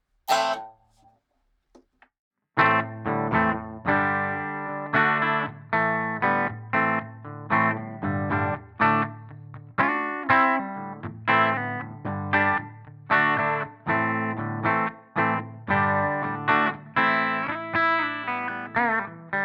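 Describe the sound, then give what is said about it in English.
Electric guitar played through an amp modeler pedal set to a Deluxe amp model: a faint isolated note, then a steady run of many picked notes and chords in a loose rhythm, each attack ringing briefly before the next. “So if I switch here to the deluxe model, I'll play a little bit on it and you'll hear it actually does sound.”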